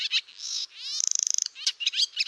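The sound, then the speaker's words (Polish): Twittering calls of a flock of swallows flying overhead: quick high chirps and whistles, a rapid buzzy trill of about ten pulses in the middle, then more scattered chirps. “Mamy właśnie statko jaskółek, które nad nami ciągnie. To są ptaki, które jeszcze kilka tygodni temu były w Afryce.”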